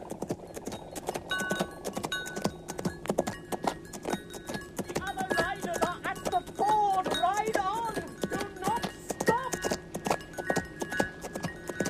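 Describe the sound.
Hooves of the horse Asfaloth clip-clop rapidly at a gallop from start to end, a fast uneven beat, while voices shout urgently over the middle section.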